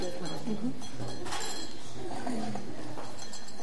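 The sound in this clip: Glasses clink in a toast with alcohol-free sparkling wine, raised to celebrate a German championship, bright taps ringing briefly under steady, lively talk from several people.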